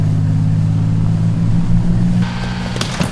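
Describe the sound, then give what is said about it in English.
Yacht engine running as the boat gets under way: a steady, low, droning motor hum holds throughout, with broader noise joining in for the last second and a brief clatter near the end. “He fits two keys into the two locks and turns the engine on. Sean, trapped in the engine room, panics as the yacht moves.”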